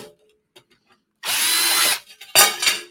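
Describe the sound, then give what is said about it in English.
A power drill bores a pilot hole in two loud, high-pitched whirring bursts, the first longer than the second, after a few faint taps. “Yep, got the pilot hole. Now we can go ahead and get the rest of it drilled in.”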